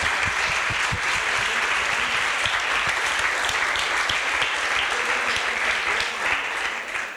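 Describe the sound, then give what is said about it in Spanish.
A crowd applauds at a live event with dense, continuous clapping. It holds an even, loud level throughout and eases slightly at the very end. “Aplaudimos a la radio.”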